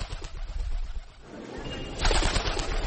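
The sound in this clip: A dove cooing: a few soft, low coos amid broad background noise.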